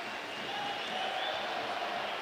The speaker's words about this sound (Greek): Χειροκροτούει ο κόσμος στις εξέδρες.